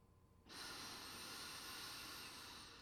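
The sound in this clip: A single long, deep inhale fills the lungs during a guided heart-chakra toning exercise. It is a steady, airy breath that starts after a brief pause and holds at an even level to the end, with no talk.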